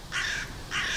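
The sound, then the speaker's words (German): Crows cawing in a residential settlement with tall trees: two harsh, raspy caws, loud and alone, the second cut short at the end. “die Krähen wohnen bei uns.”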